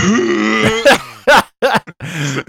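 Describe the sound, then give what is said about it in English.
A voice imitates a deep, painful cough with strained, groaning sounds broken by a few sharp, hacking bursts. “when you do one of those fat ones and then you cough like this,”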